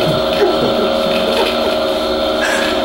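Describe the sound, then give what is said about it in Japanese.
An electric fan runs with a steady whirring drone and a few constant humming tones. It holds at an even level throughout, with no pauses. “で今度はまた今日3代目のこれ扇風機、これは何をしてるかというと”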